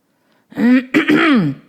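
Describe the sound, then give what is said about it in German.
A loud, deliberate throat clearing, two voiced rasping bursts in quick succession, the second longer and sliding in pitch, heard alone. “Jemand räusperte sich vernehmlich.”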